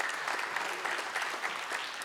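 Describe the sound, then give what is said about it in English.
Audience applause fills a church service as members honor the volunteers who serve there: steady, dense clapping at moderate-to-soft level, holding evenly throughout with no voices over it. “And let's clap for that.”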